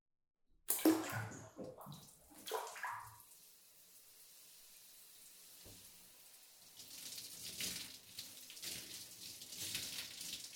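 Water splashing and pouring as someone rinses their body in a bath, with a few sharp splashes at first, then a quieter, steady flow of water that grows slightly louder toward the end.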